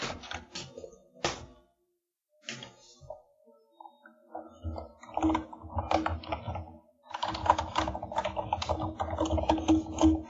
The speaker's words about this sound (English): Typeity type type type.